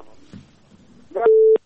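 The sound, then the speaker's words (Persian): A telephone busy tone follows a call-in line disconnecting: one short, steady, mid-pitched beep sounds loudly and cuts off abruptly, preceded by faint muffled noise. “بله این تماس ما قطع شد، میریم تماس دیگه میگیریم.”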